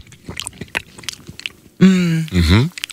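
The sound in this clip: Biting into and chewing a juicy mango, a string of soft, wet crunches and squelches, followed by a drawn-out voiced hum.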